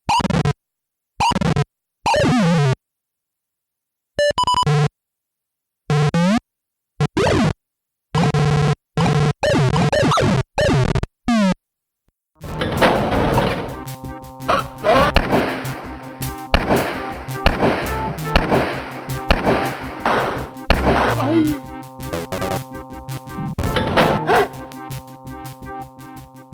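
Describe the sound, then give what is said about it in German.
PC speaker sound effects from interacting with a video game world: harsh buzzy beeps in short bursts separated by silences, then a dense, continuous stretch of raspy tones and clicks, all without music. “Das ist kaum zu erkennen, was das überhaupt alles darstellen soll, was der PC-Speaker da ausgibt. Wie gesagt, das ist keine Musik, das sind alles Geräusche aus der Spielwelt, aus der Interaktion mit der Spielwelt.”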